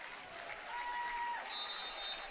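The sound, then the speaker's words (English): Crowd applause at a basketball game as seniors come onto the floor: a faint, steady wash of clapping that holds evenly throughout. “They'll get a nice round of applause.”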